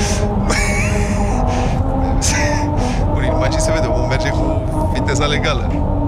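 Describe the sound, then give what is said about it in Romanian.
Car tires roar over the grooved musical road in Lancaster, California, a loud, continuous rumble carrying a faint, out-of-tune droning melody, while voices talk over it. “That was the musical road of Lancaster, California, and as you may have heard, it's a little bit out of tune.”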